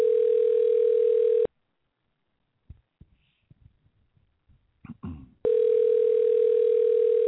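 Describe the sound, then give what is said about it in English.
A steady telephone dial tone plays while someone calls a person back. It sounds in two stretches, separated by a pause filled with a few soft clicks and rustles before the tone returns. “Okay, let's try this again. I'm going to call him back.”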